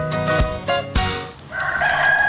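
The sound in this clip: A rooster crows at dawn within music, a drawn-out tonal call in the last second, after a few sharp percussive hits and sustained instrumental notes.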